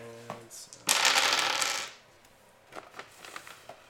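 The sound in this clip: Six-sided dice tumble across a table during a tabletop role-playing game: a dense clattering burst of about a second, then a few scattered light clicks as they settle.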